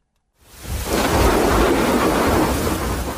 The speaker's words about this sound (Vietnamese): Đầu mùa mưa, những trận dông kèm sấm chớp rền vang trên nền trời biên giới Esup tỉnh Đắk Lắk.